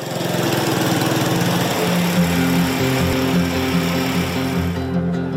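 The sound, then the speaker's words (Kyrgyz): A motorcycle engine runs in a village at dawn, a steady, loud, buzzing drone with no voices, its tone shifting slightly partway through. “Баткендин Самаркандек айылындагы таңкы жимжырттыкты Мураптын мотоциклинин үнү бузуп, айрым үйлөрдүн жарыгы күйө баштады.”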